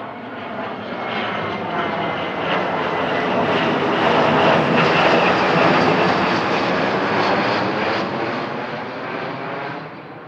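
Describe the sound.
A fixed-wing airplane roars as it takes off. Its engine gives a broad, steady rush that swells toward the middle and eases slightly at the end, with no talk.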